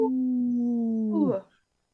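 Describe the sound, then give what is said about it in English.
A human voice imitates a wolf howl to raise awareness of Minnesota's wolf population: one long, steady, loud voiced tone that drops in pitch at the end and then cuts to silence. “bring awareness to our Minnesota wolf population by saying no to the wolf with a big howl”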